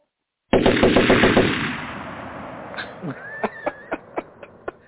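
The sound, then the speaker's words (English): Machine-gun fire opens with a loud, rapid burst of rounds that fades into a rumbling decay, followed by a string of separate, evenly spaced sharp shots. “I'll just open fire.”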